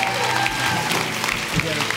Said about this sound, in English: would you please stand to your feet, and would you welcome Pastor Shawn Withy-Allen? Come on, give it up, give it up.